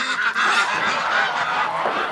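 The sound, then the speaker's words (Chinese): Geese honk continuously and loudly, the birds kept in a courtyard and going down to the river each morning; their nasal calls overlap in a dense, steady chorus with no talk. “这鹅一洗澡可白了，现在早上起来一开门自己就下河了。”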